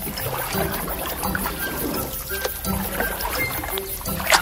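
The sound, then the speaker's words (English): Water sloshes and trickles steadily around a small family boat moving across the water, a continuous low wash with no clear strokes or breaks. “Just as he sat there blaming himself, his wife and kids returned in the same boat.”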